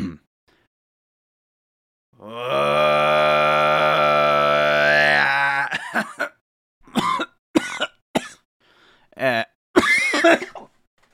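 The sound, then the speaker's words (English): Mongolian throat singing attempted by one person: a single loud, sustained buzzing drone with rich ringing overtones held for about three seconds, then a run of short coughs and throat-clearing bursts. “Don't Mongolian throat sing at 9 p.m.”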